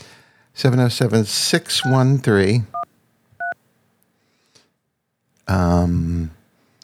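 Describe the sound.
Two brief telephone keypad dialing tones, each a short steady beep, fall between stretches of someone talking.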